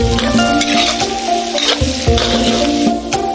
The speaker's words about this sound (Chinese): 最后下姜蒜翻炒片刻，